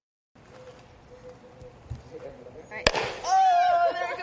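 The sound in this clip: A tablet-and-water rocket experiment blasts off with one sharp pop as the pressure builds up. Quiet voices murmur before the pop, and louder, excited voices follow it.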